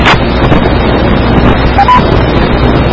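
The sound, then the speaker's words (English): A car drives along the road on the way to work: a steady, low rumble of engine and road noise with wind buffeting the microphone. No one speaks. “I'm just driving to work.”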